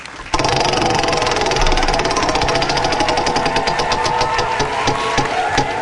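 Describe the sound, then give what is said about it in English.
A prize wheel is spun, starting abruptly into a loud, dense rattle of rapid clicks that runs on steadily to the end. “Go ahead and spin the wheel.”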